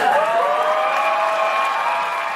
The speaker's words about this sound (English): Yes, it was Dana Carvey, who walked out towards the podium to the delight of the crowd